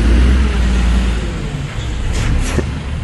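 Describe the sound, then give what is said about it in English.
A garbage truck's engine gives a loud, heavy, low rumble that dips slightly in the middle and then swells again, steady throughout with no voices. “That's some good trash truck audio”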